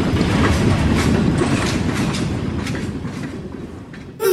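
Train rumble used as a sound effect for a nostalgia show: a loud, steady rolling roar with a clickety-clack of wheels on rails, holding level throughout and alone without talk.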